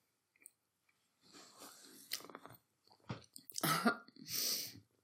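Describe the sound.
Someone bites into and chews food: a few faint, crunchy, moist bursts of mastication separated by short quiet gaps. No talking is heard.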